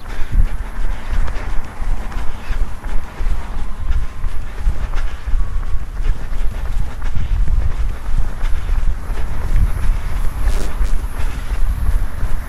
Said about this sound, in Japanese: 私の方は今、土手で走っています。